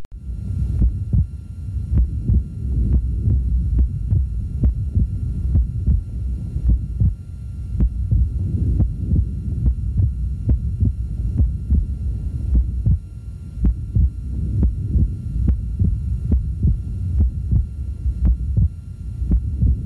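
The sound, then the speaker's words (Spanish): Heart sounds with a short, fixed split between aortic and pulmonary valve closure: steady, regular low thumps repeating throughout over a faint hum. “tanto en inspiración como en expiración, la diferencia de tiempo entre el sonido de cierre de la válvula aórtica y la pulmonar permanece muy corto y fijo.”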